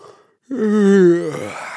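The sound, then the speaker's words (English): A human yawn: a single drawn-out voiced breath, held at a fairly steady pitch before trailing off into a breathy fade, clear and alone. “Let's take the everyday sound of a yawn”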